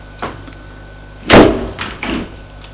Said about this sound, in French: Le laisse sur la table et va fermer la fenêtre.